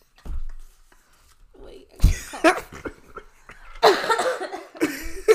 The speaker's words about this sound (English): Sorry, that I had to cough.